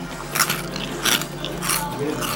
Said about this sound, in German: Jetzt machen wir den Vergleich. Was haben wir hier? Da haben wir jetzt Lion Cereals gemischt mit Cocoa Puffs.